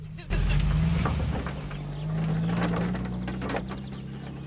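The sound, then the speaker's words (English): Morris car engine starting with a sudden onset, then running as a low, steady droning hum that climbs slightly in pitch partway through. “Starting the engine, she begins to sob.”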